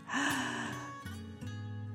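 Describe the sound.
A deep breath drawn in and slowly let out as part of a calming bedtime breathing exercise, soft and steady.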